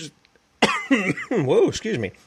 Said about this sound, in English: This is right when you start talking. Everything's fine. You start talking, throat. I don't know what the issue is there. And my cough button's way over here, so apologize for that.